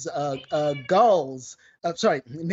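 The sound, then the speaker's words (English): A cat meowing repeatedly, several loud, drawn-out meows with bending pitch, separated by short pauses. “I'm being distracted by the cat meowing in the background.”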